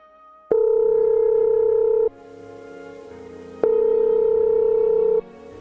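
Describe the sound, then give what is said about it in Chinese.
Telephone ringing for an incoming call, heard as two long, steady electronic tone bursts separated by a short pause, loud and with no other sound. “哎，好像有电话进来了。”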